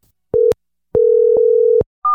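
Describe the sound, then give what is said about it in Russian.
A telephone ringback tone sounds while a call is being placed: a steady mid-pitched tone comes in a short pulse, then a longer one, each cut by clicks, and a higher beeping tone begins at the end. “Давай позвоним Сереже Макенкову.”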